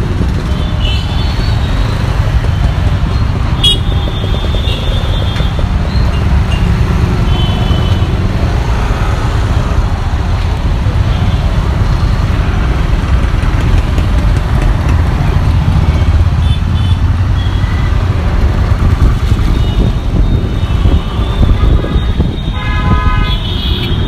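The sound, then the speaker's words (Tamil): Dense city traffic in Madras (Chennai): a steady, loud wash of engine and road noise, with occasional horn toots cutting through. “Sounds of Madras. City traffic.”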